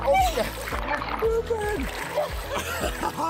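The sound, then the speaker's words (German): Water splashes as people swim, with repeated choppy sloshes and splatters throughout. Voices talk over the splashing. “Wir schwimmen.”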